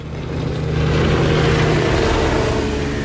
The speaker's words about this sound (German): Diese Rennboote. Als wir vor 5 Jahren das Haus kauften, gab es die noch nicht.